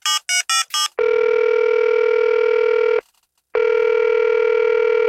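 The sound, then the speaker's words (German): A phone call is being placed: four quick dialing beeps come first, then a loud, steady ringback tone that holds for about two seconds, pauses briefly and starts again. “Dann lass uns die doch mal anrufen. Die Daniela, ist doch eine das ist eine tolle Idee. Na, da rufe ich gleich mal an.”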